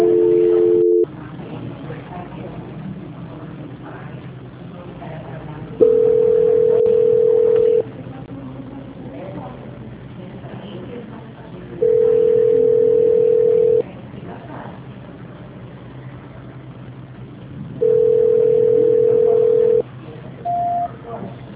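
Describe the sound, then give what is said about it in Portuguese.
Telephone call-transfer tone on a muted line: three long, steady beeps of about two seconds each, roughly four seconds apart, over a faint hiss, with a short higher blip at the end. “A ligação, ela vai ficar muda, mas a senhora não desliga a ligação. Transferência.”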